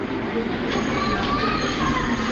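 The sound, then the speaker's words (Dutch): Steady low rumble and hum inside a stationary train waiting at Lviv station, a continuous even drone with no distinct clatter, moderately loud throughout. “Nou, we zijn net in Lviv aangekomen. We staan te wachten op het station tot we eruit mogen.”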